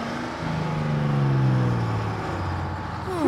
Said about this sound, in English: Carl drives through the streets and arrives at the construction site.